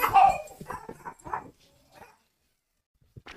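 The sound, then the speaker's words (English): Dogs barking excitedly at someone at the door, with sharp barks, yips and whimpers crowding the first half, then quiet apart from a brief knock-like sound at the end. “Someone was at our door, so the dogs were going crazy”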